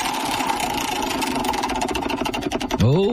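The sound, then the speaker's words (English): Prize wheel spinning: a rapid, buzzing run of clicks that grow sharper and more separate toward the end. “why don't you spin the wheel, and you have to tell me what city it lands on.”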